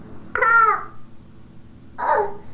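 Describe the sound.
A baby babbles in two short voiced bursts separated by a pause. The sounds are clear, mid-pitched and stand alone without other talk.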